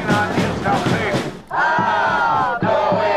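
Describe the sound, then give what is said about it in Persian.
Thousands of Israeli protesters in Tel Aviv chant together, demanding a final hostage-release deal and an end to the Gaza war. The crowd shouts in loud, rhythmic phrases, broken by a short pause before the chant resumes and again briefly near the end. “تظاهرات هزاران اسرائیلی در تل آویو با خواست نهایی شدن توافق برای آزادی گروگان‌های اسیر در دست گروه افراطی حماس و پایان جنگ در نوار غزه.”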